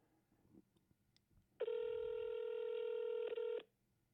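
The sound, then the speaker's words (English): Ringback tone of an outgoing telephone call, heard as a single steady buzzing tone about two seconds long, loud against faint background noise, with a few soft clicks before it. “Two rings.”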